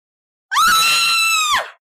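A girl's scream of terror and pain: one sustained, high-pitched, piercing cry of about a second, rising sharply at the onset and dropping away at the end, heard alone without talk.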